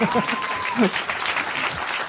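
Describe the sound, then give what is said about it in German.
An audience applauds during a live game, a steady wash of clapping with people talking over it. “Das ist nochmal euer Applaus, wollte ich sagen.”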